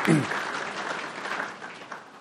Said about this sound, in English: For that, I almost think we need to give you guys a round of applause. So give yourself a round of applause.